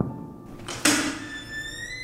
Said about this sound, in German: Aber dann stand ich da, in diesem düsteren Flur, und klopfte an die massive Stahltür.